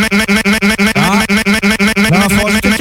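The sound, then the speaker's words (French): A scooter engine is cranked over as someone tries to start it, giving a loud, steady run of rapid mechanical pulses with a buzzing tone, while voices briefly speak over it. “On va démarrer le scooter de Toff.”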